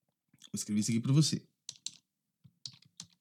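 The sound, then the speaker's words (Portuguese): Typing on a computer keyboard while a sentence is written out: short, scattered bursts of clicking keys follow a brief stretch of a person speaking near the start. “Vou escrever isso aqui para você.”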